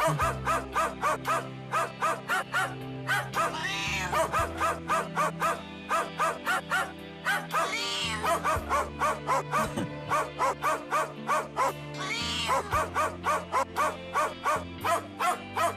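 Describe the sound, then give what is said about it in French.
Dogs' barks arranged into a song melody, with many short rhythmic yaps and woofs at varying pitches set over a steady musical backing, loud and evenly paced throughout. “Ici à Nostalgie, nos boules de poils chantent. Vous trouvez leur chanson, c'est gagné.”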